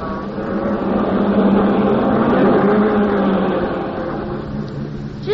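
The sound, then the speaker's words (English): A car backing out of a driveway into the street, heard as a steady engine drone with a gently wavering pitch that holds loud and then eases slightly toward the end. “That was one of my best backing jobs. Clear out of the driveway and into the street, and I didn't lay a wheel on one petunia.”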